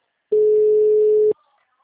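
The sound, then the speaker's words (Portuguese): A telephone ringback tone as a call rings unanswered: one steady, unbroken tone about a second long at a constant mid pitch, heard alone. “liguei pra ele, ele não tá atendendo. Deixe sua mensagem na caixa postal.”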